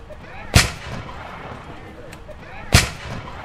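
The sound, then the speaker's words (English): Two sharp musket shots are fired by 9th Infantry reenactors testing their muskets at a transfer ceremony in Sitka, Alaska. The loud cracks come about two seconds apart, and each has a brief decaying tail. “I've been hearing shots going off. What's been going on? We're making sure that the muskets work.”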